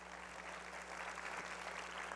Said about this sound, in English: You can clap for him, I think.